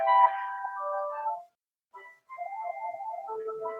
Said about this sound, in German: Super, jetzt kriege ich einen Anruf.